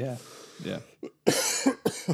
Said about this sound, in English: Professional cough there. I'll definitely leave that in. That was a cough, was it?